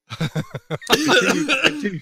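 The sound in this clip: Coughing from someone who has just choked on tea: a few short, sharp coughs, then a longer, harsher and more voiced sputtering fit.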